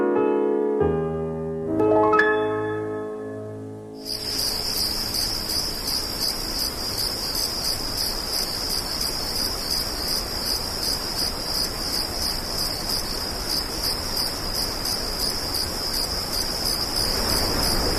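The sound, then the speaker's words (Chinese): Crickets chirp in a dense, continuous, high-pitched trill with a fast pulsing rhythm, loud and steady after a few seconds of soft melodic tones. “怀念蛐蛐和蟋蟀的叫声吗？那是童年和生活的一个伴奏”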